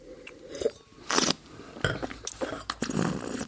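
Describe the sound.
Wine is sipped and slurped at a wine tasting in a series of wet slurps, swishes and gulps that rise and fall in loudness. No one talks.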